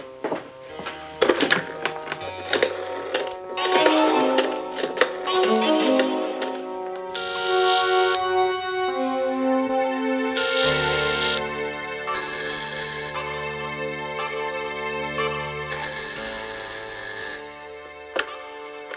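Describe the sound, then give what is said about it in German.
A telephone rings as someone urgently calls the police: long electronic ringing bursts with a bright, steady tone, preceded by a busy run of shorter tonal beeps. “So, jetzt schnell die Polizei anrufen, bevor er ausbricht.”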